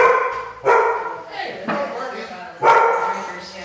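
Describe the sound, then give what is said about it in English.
A dog barks at a home in a Texas eco-community, a few sharp, loud barks spaced about a second apart, each one trailing off before the next. “That's the dog.”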